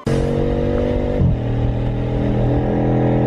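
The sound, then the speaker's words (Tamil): A car engine as the vehicle sets off and drives, a loud steady hum that dips in pitch once as it shifts, then carries on evenly. “சரி வண்டி எடுப்பா. சரி sir, உட்காந்துட்டீங்களா? உட்காந்துட்டேன்ப்பா, seat belt கூட போட்டேன். நானும் போட்டுக்கிறேன், புறப்படலாம் sir. போலாம்ப்பா.”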